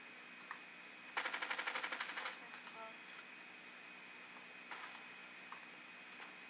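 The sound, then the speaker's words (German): Automatic gunfire in the Fortnite video game: a single rapid burst of evenly spaced, sharp shots lasting about a second, loud against a quiet background, followed by a few faint scattered clicks. “Ich, ich versuche sie runter zu schießen.”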